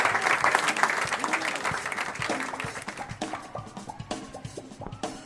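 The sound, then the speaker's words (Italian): A live audience applauds after a piano and music performance. Dense, fairly faint clapping thins out and fades, and a voice speaks over the tail. “Quanti applausi per Enrico Intra”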